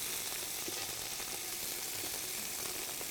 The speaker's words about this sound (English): And once you add the onion, it will start to release moisture too.